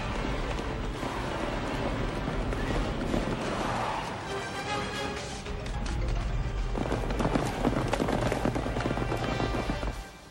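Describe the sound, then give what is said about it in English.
A herd of animals stampedes through a gorge, a dense, loud, continuous roar of pounding hooves and rumbling that holds steady throughout and swells slightly toward the end. “Oh, look, sire. The herd is on the move.”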